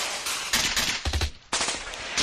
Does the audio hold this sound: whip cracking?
no